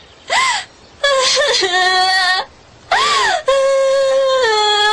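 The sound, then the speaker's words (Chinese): A woman curled up on a couch suddenly bursts into loud crying. A few long, high wailing cries rise and fall in pitch, broken by brief pauses. “玄灵不置可否，倒是缩在榻上的春嫔突然放声哭了起来。”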